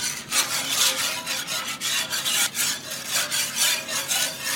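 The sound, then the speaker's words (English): A whisk scrapes browned bits of meat from the bottom of a pan while milk gravy is stirred. The scratchy strokes come fast and steady in a continuous rhythm, with no talking. “That sound you hear are the little bits of flavor that were in the bottom of the pan after I cooked the meat.”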